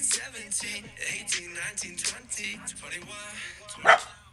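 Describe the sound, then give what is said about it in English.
A dog barks many times in quick succession with short, sharp, yappy barks in an uneven rhythm. One louder bark comes near the end. “Did your dog just boo me? He walked off. He walked off. Yo, I've never seen that dog bark in my life. Until now.”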